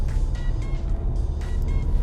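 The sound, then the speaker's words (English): A car engine rumbles steadily and low while the driver shifts gears from first to second, holding an even loudness throughout with no clear break in the sound. “You're supposed to shift from first to second.”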